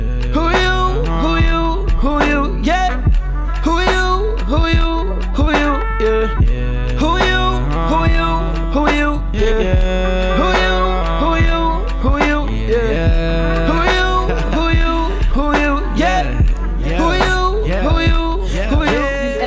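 A snippet of an unreleased song plays for about twenty seconds, with a steady deep bass underneath and busy, shifting melodic lines on top. It runs at a full, even level with no talk over it.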